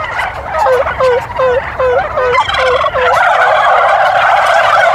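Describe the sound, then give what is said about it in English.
A person imitates a female turkey's call with a run of rising-and-falling yelps. Rapid warbling gobbles follow and then thicken into a dense, continuous chorus from turkeys answering. “if I do the female turkey, they're a little bit longer in responding because they're not quite sure where the female is, but I'll do it again.”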